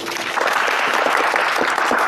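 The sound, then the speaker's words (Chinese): Steady applause from a class during a hands-on demonstration of scanning a shield tunnelling machine's cutterhead. It is a dense, even patter of clapping that fills the full two seconds without a break. “大家掌声鼓励”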